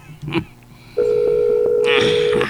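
A telephone dial tone: after a few brief clicks and a short, louder burst, a steady, even tone begins about midway and holds unbroken to the end.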